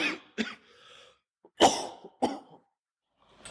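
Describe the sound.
A person who has choked coughs and clears their throat in a few harsh, separate bursts with short quiet gaps between them.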